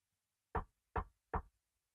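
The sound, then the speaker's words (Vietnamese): Three firm knocks on the door of a room inside a house, evenly spaced and sharp, each dying away quickly, with silence between and no voices. “bước đến gõ cửa thì vẫn không thấy ai mở cửa cả”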